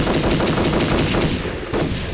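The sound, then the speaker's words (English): Rapid, sustained automatic gunfire during a firefight as attackers push through a stairwell door: a loud, dense, unbroken stream of shots with a brief dip near the end and no voices. “They keep coming! Then keep shooting!”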